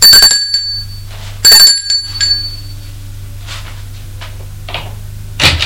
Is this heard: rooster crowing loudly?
no